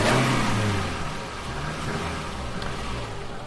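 A combustion-engine car revving, a broad roaring engine noise that is loudest at the start and eases a little, with low droning tones beneath.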